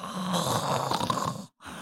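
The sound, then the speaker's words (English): A voice imitates the snoring of a big frog, a thick, rasping, wet snore held for over a second. It breaks off into brief silence, then a second snore begins. “Just big frog snores. Yeah, classic like snot bubble kind of situation.”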